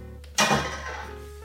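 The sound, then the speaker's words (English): A silicone spatula scrapes a mashed mixture into a container. A soft thud opens into a sustained, smeary scraping that fades slowly. “I might switch to the silicone spatula instead since I need to use it to scrape it into the container anyway.”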